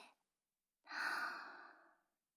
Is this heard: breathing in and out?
yes